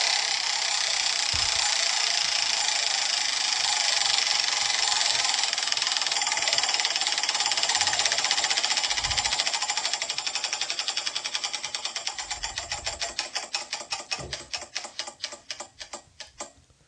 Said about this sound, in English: Spin that wheel, baby.